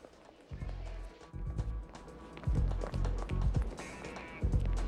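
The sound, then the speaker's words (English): Running footsteps of people hurrying out through glass doors and along a cloistered walkway: many quick, heavy, uneven steps that grow louder toward the end. “They run back out through the glass doors and along the cloistered walkway.”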